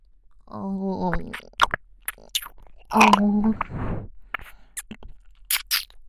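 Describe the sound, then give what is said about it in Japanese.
Close ASMR ear massage inside the ear, made of crackly scraping and rubbing bursts that come and go irregularly at soft level, with brief soft vocal sounds between them. “ではこのままお耳の中のマッサージもさせていただきますね。”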